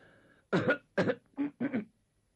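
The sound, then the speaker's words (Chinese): Throat clearing by a storyteller, four short, rough bursts in a row with brief pauses between them, fairly soft, with no speech around them. “张作霖站起身来，先清清嗓子，双手往下一按，那意思大家肃静”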